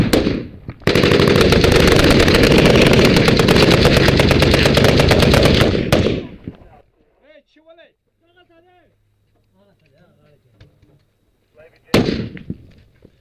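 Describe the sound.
Automatic gunfire from actual military combat rattles in one long, dense, loud burst lasting about five seconds. A quieter stretch with brief voices follows, and then another sharp burst of fire breaks in near the end.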